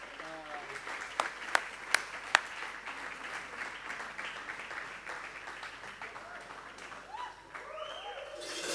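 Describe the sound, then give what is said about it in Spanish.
Faint audience applause follows a concert piece at a hybrid ensemble premiere concert. Soft, steady clapping is heard, and four sharper individual claps stand out in the first few seconds. “Así que les damos un fuerte aplauso a esto que es Genocidra.”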